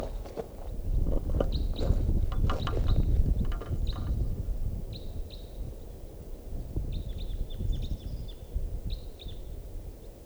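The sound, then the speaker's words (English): Type 4 red crossbill calls at 5 a.m.: a series of short, high, clipped call notes in scattered bursts over a steady low rumble. “At 5 a.m., here comes a crossbill.”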